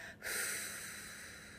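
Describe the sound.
A long, steady exhale during a guided breathing exercise: a soft, even, breathy hiss that begins abruptly after a brief pause and holds nearly constant to the end.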